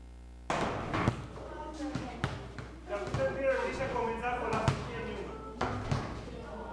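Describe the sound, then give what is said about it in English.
Basketballs thud and bounce as children shoot free throws at a hoop, boys against girls, in a played-back video. Many dull thumps at an irregular pace, some louder than others, with voices talking throughout. “So we've got a little video of them for the first time shooting baskets.”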